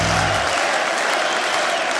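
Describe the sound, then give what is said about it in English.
Steady audience applause, a dense, loud wash of many hands clapping that holds at an even level from start to finish. “Give it up. Clap for him. He needs to hear these cheers.”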